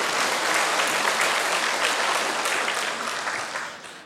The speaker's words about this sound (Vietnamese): Hôm nay ngồi nghe vỗ tay dữ lắm.